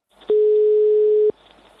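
A single steady ringback tone sounds while a telephone call is being placed, one long mid-pitched beep lasting about a second, alone over faint line hiss.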